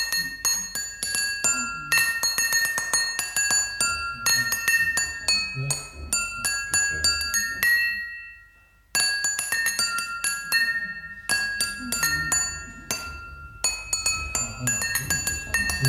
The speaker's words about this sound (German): Die Säge hört die Gläser klingen.